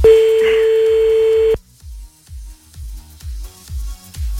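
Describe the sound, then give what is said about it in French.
Telephone being dialed: a steady dial tone sounds alone for about a second and a half, then a run of short, evenly spaced low pulses follows. “Merde, attends, j'appelle un deuxième en même temps.”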